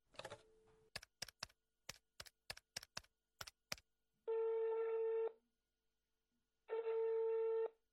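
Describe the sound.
A telephone being dialed: a quick series of about a dozen short key beeps, then two long steady ringback tones separated by a pause.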